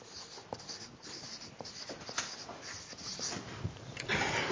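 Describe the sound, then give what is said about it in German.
A pen or marker scratches across a board or paper as a word is written. The soft, continuous scraping strokes have an uneven rhythm and grow slightly louder toward the end. “Ich schreibe hier mal die Vollendung rein.”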